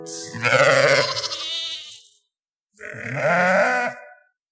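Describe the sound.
Two drawn-out, quavering sheep bleats, loud and clear with no talk: the first lasts about two seconds, then after a short pause a second, slightly shorter bleat follows.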